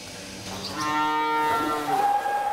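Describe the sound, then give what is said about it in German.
A Belgian Blue beef-breed cow and her calf moo in a long, loud, drawn-out call that swells and holds, with a brighter, higher tone toward the end. “Das ist eine ganz besondere Fleischrasse, weißblaue Belgier heißen die und dadurch ist das Kalb halt so schwarz-weiß und Kalb und Kuh sind wohl auf.”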